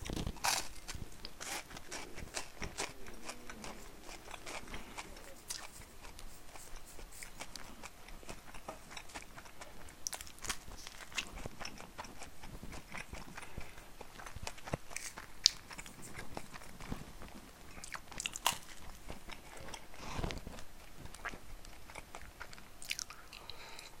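Bread being bitten and chewed, a long, quiet run of soft crunches, clicks and wet mouth noises repeating in an uneven rhythm with no talk.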